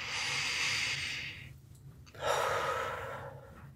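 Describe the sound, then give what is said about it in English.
A slow, deep breath during a guided meditation, heard as two soft, airy breath sounds, a long one, a brief pause, then a second, all quiet. “Maybe take a deep breath.”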